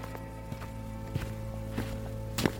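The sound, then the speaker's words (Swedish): Footsteps of spurred boots stepping onto a dusty floor in a small-town Missouri bank in 1869: a few steady, evenly spaced treads over a continuous low humming background. “Med vana steg kliver deras sporrade stövlar in på det dammiga bankgolvet.”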